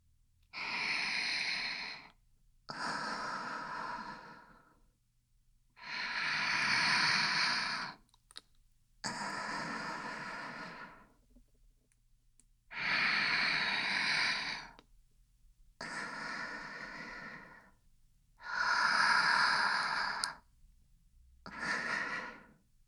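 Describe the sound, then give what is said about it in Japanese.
Slow, deep breathing: about eight long, airy breaths, each lasting roughly two seconds with short quiet gaps between, steady and even in rhythm with no talking. “どうしても辛かったら、ゆっくり深呼吸して。”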